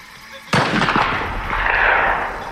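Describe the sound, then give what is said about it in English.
A single loud boom from a father's rifle fired near corn stalks, with a sudden sharp crack followed by a long ringing echo that slowly fades over two seconds. “My focus was broken from the loud boom of my father's rifle. The sound echoed and bounced off the corn stalks before ringing into the truck.”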